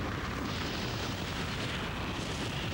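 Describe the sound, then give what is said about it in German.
An avalanche rushes down a mountain toward a village in a cartoon, a dense, unbroken roaring rumble that holds steady and loud from start to end. “Schon sieht man ihn auf Vordermattern zu als Lawine schießen, wo grad das Vesperglöckle läut.”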